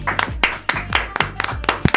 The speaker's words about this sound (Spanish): Forte aplauso, por favor, merezo moito, Juan Mayo, a su servicio.